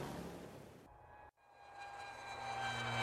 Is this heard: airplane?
yes